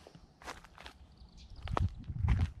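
Footsteps of a person walking: a few soft, scuffing steps that grow louder toward the end, with faint rustling between them and no talk.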